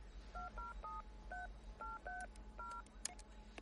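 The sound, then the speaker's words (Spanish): Telephone keypad tones as a man dials a number: seven short dual-pitched beeps in an uneven rhythm, then a few faint clicks, all over a low steady hum. “Él llama por teléfono.”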